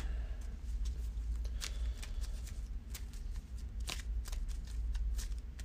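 Playing cards being searched through by hand, digging through an encounter deck and discard pile during a card game; many quick papery snaps and rustles come in uneven bursts, with no talk.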